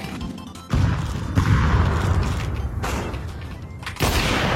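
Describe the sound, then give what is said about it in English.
A flashbang grenade goes off in a video game, heard as a few sudden loud bangs and crashes that cut in over the game's background noise. “Flashbang. I got him.”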